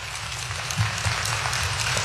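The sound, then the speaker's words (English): Brief, steady round of applause from the audience at a civic community event honouring local judges, an even wash of clapping without pause. “Give our judges a wonderful round of applause.”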